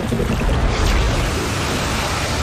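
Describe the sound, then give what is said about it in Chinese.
A cold-water geyser erupting, giving a steady, dense rushing roar of spraying water. The hiss holds nearly even and loud from start to finish with no voices. “那是冷水间歇泉，我们叫它老信赖”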